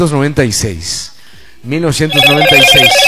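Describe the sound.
Telephone ringing for an incoming call: a pulsing electronic ring enters in the last second, following a stretch of voices with a brief quiet gap between them.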